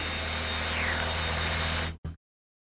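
A Piper Cherokee light aircraft's engine runs at full power for takeoff, a loud, steady droning roar with a constant low hum that cuts off abruptly, then gives one brief final burst and falls silent.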